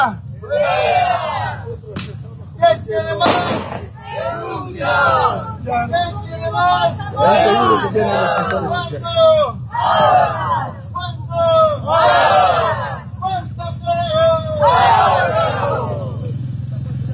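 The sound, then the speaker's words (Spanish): A street protest march with pot-banging (cacerolazo) demanding a politician's resignation: a crowd chants in rhythmic, rising and falling waves, with a few sharp bangs cutting through. “como podemos observar a estas horas de la mañana, amigos y amigas, se está realizando esta marcha y cacerolazo en renuncia de Rodrigo Paz.”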